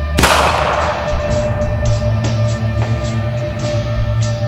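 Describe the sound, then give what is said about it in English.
Gunfire from a tower during a shooting: one loud, sharp blast with a long ringing decay, then a few faint cracks spaced through the rest. “A hail of gunfire coming down from the tower.”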